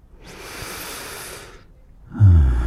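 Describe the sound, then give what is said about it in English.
A slow, deep breath drawn in with a soft, airy hiss, then a short pause and a louder, lower breath let out. It is heard alone, with no talk. “You want to take a breath with me, little bunny? Let's breathe together.”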